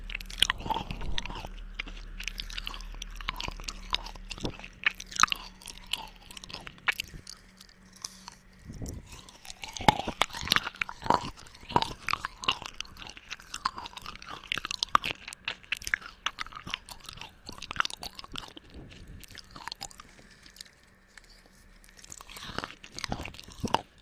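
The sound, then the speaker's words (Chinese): Crunchy food being bitten and chewed: many crisp, irregular crunches and wet chewing clicks follow one another steadily over the whole stretch, with no talking. “好吃吗？来，再来一口。”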